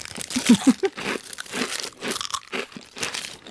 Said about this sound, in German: Ich esse mal in der Zwischenzeit mein sehr geräuschvolles Essen.